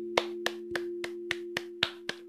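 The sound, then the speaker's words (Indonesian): Applause as a run of crisp, evenly spaced single hand claps, sharp and bright, over a steady low hum with no voices. “Give me applause, baby.”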